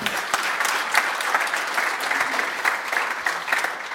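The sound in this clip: Audience applause welcomes a speaker to the stage at an art talk: steady, dense clapping at an even loudness from start to finish.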